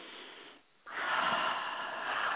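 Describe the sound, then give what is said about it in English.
A deep breath, heard as a long, loud breathy rush of air that follows a short quiet moment, with no talking over it. “I'll do it even right now. I just need to take a deep breath.”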